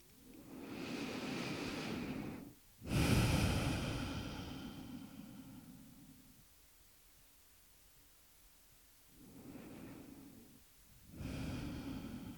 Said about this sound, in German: Atme tiefer ein und nochmal aus.